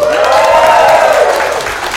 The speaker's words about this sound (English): Let's hear you people make a little noise.